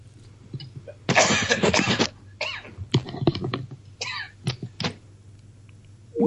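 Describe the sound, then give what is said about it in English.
A man coughs repeatedly in a fit: a long harsh burst, then a few shorter rough hacks spaced unevenly, loud against a quiet low hum with no talk. “Sorry, still coughing away here.”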